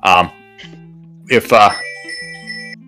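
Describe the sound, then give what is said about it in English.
Telephone ringing: steady electronic ring tones hold at fixed pitches between short bursts of voices, with a second ring pattern following the talk. “There's a phone ringing.”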